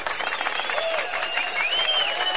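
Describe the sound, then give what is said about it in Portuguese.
Applause during a Brazilian radio comedy segment: a continuous, fairly quiet patter of many hands clapping, steady in level, with a few thin tonal streaks riding above it. “Isso! Aplausos, isso! Obrigado pelos aplausos.”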